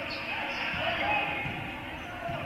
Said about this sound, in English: Couple of dribbles by Darius Lee.